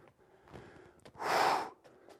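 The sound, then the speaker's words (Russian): Someone exhales forcefully during a leg exercise: one strong, breathy push of air stands out at the midpoint, surrounded by softer, quieter breaths. “Выдох. На усилии мы делаем выдох.”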